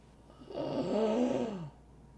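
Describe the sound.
A single heavy inhaled breath, rough and slightly voiced, swelling and fading over roughly a second, heard alone against quiet background.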